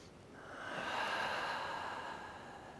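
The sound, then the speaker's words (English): A big breath drawn in: a soft, breathy inhalation that swells in the middle and then fades, heard alone without talk. “Big breath in.”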